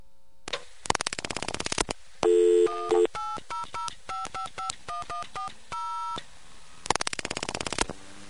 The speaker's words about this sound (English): What does it not like me dialing fast at it?